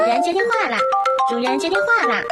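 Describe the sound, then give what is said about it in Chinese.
A novelty phone ringtone in a cartoonish sung voice rings loud and bouncy, with a lively melody that jumps up and down in pitch for about two seconds. “主人接电话了。 是谁在打电话？”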